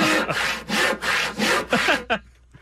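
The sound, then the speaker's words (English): A hand saw cuts through wood in steady, rhythmic back-and-forth strokes, each a loud rasping burst with brief gaps between. The run ends with a short final pass and then silence. “That sounds like a saw. It is a saw.”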